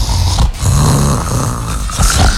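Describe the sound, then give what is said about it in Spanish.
A voice imitates a woman's snoring with loud, rough, rattling snorts and throaty grunts, repeated a few times in a continuous stream. “cuando dormimos, ella tiene un ronquido particular.”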